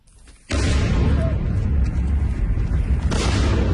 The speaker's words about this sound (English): This was Kyiv last night under another Russian attack.